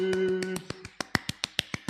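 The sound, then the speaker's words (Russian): Rapid, evenly spaced hand claps, many of them in under two seconds, each crisp and moderately loud. A voice is heard briefly at the start. “Я так хлопаю, создаю э, эффект 3D.”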